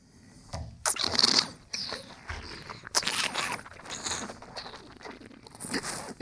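Air slurped through a mouthful of wine during a wine tasting, drawn in as a few hissing, gurgling bursts of moderate loudness with quieter noisy stretches between them.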